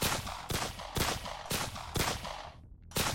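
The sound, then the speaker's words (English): Gunfire as an assault team kicks in a door and storms a room: six loud, sharp shots. The first five come in rapid, evenly spaced succession, then a brief pause before the last. “The assault team Counted silently, and kicked in the door. They entered the room, guns blazing.”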